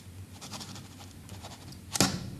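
A pen tip scratches across paper in faint, light strokes, ending with one sharper, louder scrape.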